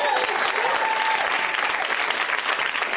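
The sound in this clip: An audience applauds with brisk, dense clapping that stays loud and even for a few seconds.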